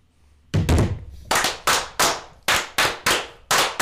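Masonic 'fire', a ritual battery of clapping by lodge brethren: a series of sharp, loud claps and thumps in a quick, slightly uneven rhythm, with no voices.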